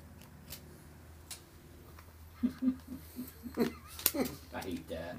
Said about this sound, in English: Alright, we're looking through our cards right now.